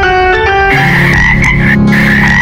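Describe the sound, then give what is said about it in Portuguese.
Frogs croak in a loud, continuous, buzzing harmonic drone whose pitch wavers slightly, with no other sounds. “Três sapos estavam sentados em um tronco de madeira. Um dos sapos pensou em pular.”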